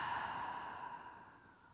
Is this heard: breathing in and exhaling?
yes